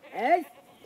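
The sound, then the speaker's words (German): A goat gives a single short, wavering bleat on an island where goats graze. The bleat is nasal and quavering, lasts under half a second and is fairly loud, then fades to near quiet. “Die Ziegen grasen überall auf der Insel.”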